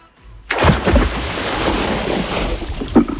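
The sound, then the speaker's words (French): Someone diving into water: a sudden splash, then a sustained rush and churn of disturbed water. “Mais comme j'ai bien chaud, moi j'ai envie de plonger dans l'eau. Ben oui, c'est un grand plouf ou un petit, c'est comme vous voulez, c'est la bonne réponse.”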